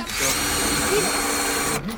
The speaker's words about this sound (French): Juste, on a besoin de la dévisser et refaire un trou.